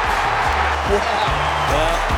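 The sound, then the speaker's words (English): Crowd cheering at an Australian football match with Adelaide playing: a steady, loud roar fills the whole moment while a man talks over it. “The crowd cheers.”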